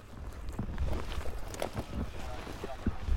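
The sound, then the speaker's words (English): Gusty wind blows across a wildfire line outdoors, buffeting the microphone with a low rumbling roar and irregular gusts that swell and fade without pause. “they're assessing weather conditions you can feel the wind in our face, right?”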